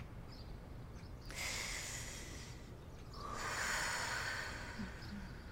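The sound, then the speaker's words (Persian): Slow, calm breathing during a relaxation exercise: one long, airy inhale is followed by a long, soft exhale, heard alone and quietly. “یه لحظه وقت داریم؟ فکر کردم خوب باشه که یکم با هم آروم نفس کشیدن و تمرین کنیم.”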